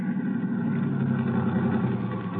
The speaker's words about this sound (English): All right, Professor, pull up for a minute. But I don't see any sign, Mr. Strickland. Are you sure? Stop the car.